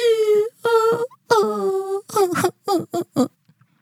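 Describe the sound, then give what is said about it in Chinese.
A voice imitating a little orange elf crying: high, wavering sobbing wails, first a few longer drawn-out cries, then shorter choppy sobs that break off into silence. “说完，橘色小精灵又哭了起来。”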